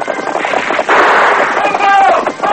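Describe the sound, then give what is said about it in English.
Gunfire from a Colt revolver and a single-shot rifle during a chase on horseback, harsh, loud bursts over a rough, noisy background. “Red Wolf whirled, leveled his single-shot rifle over his pony's neck and fired. The bullet clipped hair from Silver's flying mane. An answering shot from the masked man's Colt broke the chief's gun stock.”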